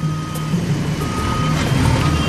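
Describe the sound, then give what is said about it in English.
Reversing beeps from a bulldozer backing up while clearing a road, a steady repeating electronic tone over the low rumble of heavy engine noise. “They're working furiously, back and forth. The bulldozer's backing up and pushing stuff off to the side.”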